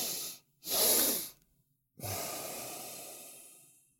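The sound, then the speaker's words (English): Breathing through the nose with a double inhale: two quick sniffing breaths, then after a short pause a long, soft exhale that gradually fades. “you breathe through the nose with a double inhale like this. So a double inhale.”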